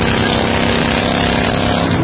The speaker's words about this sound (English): And this is what that same commercial sounds like on your motorcycle.